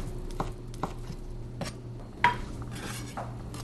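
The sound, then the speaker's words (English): A knife chops soft, pitted dates on a board, giving a few quiet, irregularly spaced taps, one of them sharper and louder. “And these dates happen to have a pit in them, so I'm just going to take the pit out. So I'm just going to chop these up.”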